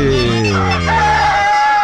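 A rooster's crow, played as a sound effect to open a call-in rooster-and-hen game, rings out as one long, loud, harmonically rich cock-a-doodle-doo lasting nearly two seconds.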